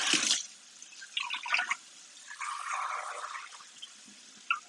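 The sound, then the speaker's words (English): Water being poured into a 6-quart pot, heard as a few uneven bursts of splashing and trickling, fairly faint, with quiet gaps between them and no talk. “I'm going to put about 2 cups of water in my 6-quart pot.”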